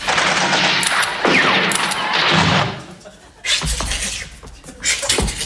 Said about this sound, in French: À mon commandement, feu à volonté!